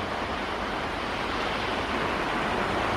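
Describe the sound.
Waves wash at the water's edge at night in a soft, continuous rushing hiss that stays steady and even throughout, with no voices.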